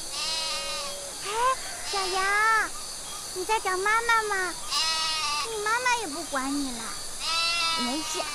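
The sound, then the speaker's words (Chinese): A lamb bleats near rice paddies, giving many loud, wavering, quavering calls one after another, some rising and falling in pitch, with short gaps between them. “哎，小羊，你在找妈妈吗？你妈妈也不管你了。”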